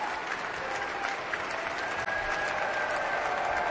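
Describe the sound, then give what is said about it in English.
Sustained, dense applause from the audience after an Aspen Festival Orchestra concert in the Klein Music Tent, steady and even from start to finish. “Abel Salalcier and Stéphane Deneuve are bowing to the audience. And then each one turns to the orchestra and applauds them.”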